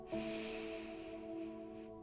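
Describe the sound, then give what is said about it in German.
A long, deep inhale through the nose during a guided breathing exercise: one steady, airy breath lasting almost two seconds over soft sustained musical tones. “Und noch einmal tief durch die Nase ein.”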